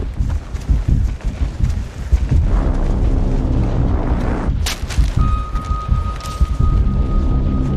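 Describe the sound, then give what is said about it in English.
Artillery shelling explosions in a war battle scene: a heavy, continuous low rumble of booms, broken by one sharp, bright blast past the middle, after which a thin steady tone rings on beneath the rumbling. “Artillery attack!”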